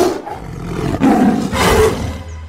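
A hungry tiger roars, giving two loud, swelling bursts of rough, throaty growl about half a second apart after a quieter lead-in.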